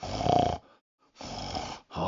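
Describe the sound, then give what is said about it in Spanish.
A man's voice imitates his wife's nighttime snoring: two long, loud, rasping snore-like breaths separated by a quiet pause, with a third starting at the end. “Todo por su culpa, porque por las noches no puedo dormir por sus ronquidos.”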